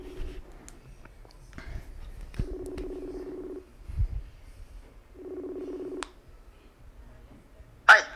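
Two steady, low, buzzing ringback tones, each roughly a second long, sound on the line as a call is placed, separated by a pause and surrounded by faint handling clicks.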